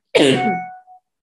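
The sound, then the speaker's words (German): One sharp, loud cough bursts out and trails off, followed by a short, fainter catch of breath. “So, jetzt musste ich mal kurz husten.”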